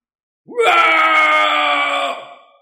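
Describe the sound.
A long scream from a white-haired old man with his face turned up to the sky, one loud sustained cry that rises sharply at the start, holds steady for over a second, then fades out.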